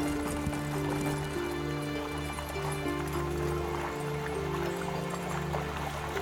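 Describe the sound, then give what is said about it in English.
Horse hooves clip-clop steadily as they pull a wagon along a road heading out of town. The rhythm is even and fairly quiet, set against sustained droning tones that continue underneath. “All right, so y'all get back into the wagon and head east out of Erlin.”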